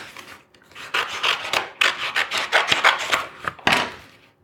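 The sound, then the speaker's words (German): A crowbar cuts open a page of a book, making many loud rasping, scraping strokes of paper in an uneven rhythm, with no talk. “Deswegen schneide ich jetzt die Seite mit dem Brecheisen auf.”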